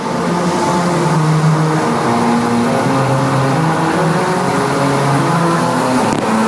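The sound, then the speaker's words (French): A car engine runs and revs in a loud, continuous harmonic drone, its pitch shifting up and down slightly throughout, with no voices. “Il aurait dû faire ça avec une auto électrique. Ouais. On n'aurait pas entendu le moteur.”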